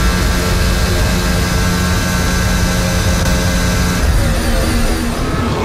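A Formula 1 car engine roars onboard with George Russell at the 2023 British Grand Prix, lap 6 of 52, as a loud, sustained high-revving drone with a brief shift in tone near the end.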